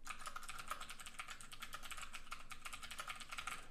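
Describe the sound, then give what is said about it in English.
Typing on a computer keyboard: a steady stream of many quick, crisp key clicks with no pauses, moderately loud and heard alone. “The first thing was, I'll go ahead and type it out here.”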